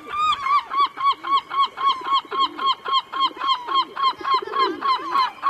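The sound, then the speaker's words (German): Black-headed gulls give many loud, evenly spaced nasal calls in a steady rhythm, each a short harsh cry, repeated without pause for the whole stretch. “Auch der Seevogel des Jahres ist gekürt. Dieser Titel geht an die Lachmöwe. Und so klingt sie.”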